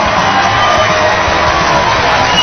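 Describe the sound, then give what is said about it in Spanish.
Audience applause and cheering on a live show, a dense and loud wash of clapping mixed with whoops and shouts. It holds steady throughout without separate claps standing out. “Así que aplauso.”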